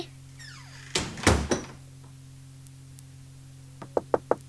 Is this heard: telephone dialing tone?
no